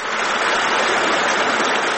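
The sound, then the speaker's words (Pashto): A permanent stream flows down from the mountains in Tani district, Khost province, with an even, continuous rushing hiss of water that holds steady without breaks. “دا د خوست ولایت د تڼیو ولسوالۍ اړوند د نریزي له غرونو بهیدونکي دایمي اوبه دي”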